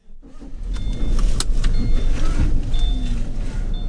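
A car drives along with a steady engine rumble and road noise, swelling up in the first second and then holding loud and even, with a few faint higher clicks on top.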